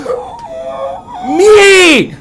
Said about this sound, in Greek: Έλα, μην κλαις άλλο.